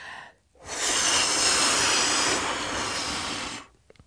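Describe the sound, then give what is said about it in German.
A single long breath blowing out the candles on a birthday cake: about three seconds of strong, steady breathy hiss that starts abruptly and then stops. “Aber jetzt blasen wir erstmal die Kerzen auf der Geburtstagstorte aus.”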